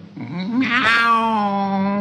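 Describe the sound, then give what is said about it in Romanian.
A cat gives one long, drawn-out meow that swells into a bright, wavering cry, then settles into a steady, strained tone held to the end, with no talking. “Da, nu mi-închipuiam că puteți lua chiar și chipul unei pisici.”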